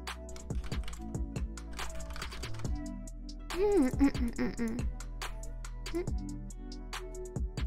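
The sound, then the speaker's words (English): Someone types on a computer keyboard, producing many quick, light clicks in an uneven but continuous stream, with a brief busier burst partway through. “Okay, let me type it.”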